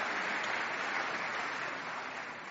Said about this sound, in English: A standing ovation, no less.